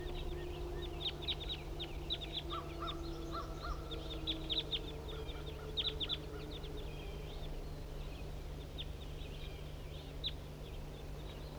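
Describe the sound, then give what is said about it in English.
A flock of wild birds calls out in many short, harsh, caw-like cries, scattered irregularly and faint over a steady low hum. “Here comes some more wild birds. Pointed at the wild flock.”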